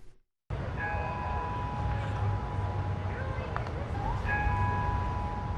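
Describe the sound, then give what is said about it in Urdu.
Church bells ring in Orlando a week after a nightclub shooting. Steady bell tones sound in two stretches over a continuous low rumble. “Plus night club میں عمر متین کی جانب سے shooting کے ٹھیک ایک ہفتے بعد اورلینڈو میں چرچ کی گھنٹیاں بجائی گئیں”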